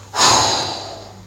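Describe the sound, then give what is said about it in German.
One deep breath is drawn during a spoken prayer, a loud, airy rush that swells quickly and then slowly fades, heard alone. “Komm, lass mal einen tiefen Atemzug in der Gegenwart Gottes nehmen.”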